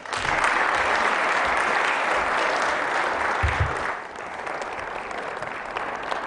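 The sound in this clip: An audience on a campus applauds to welcome a guest speaker, loud, dense clapping that runs steadily for about four seconds before easing to a lighter, thinner patter to the end.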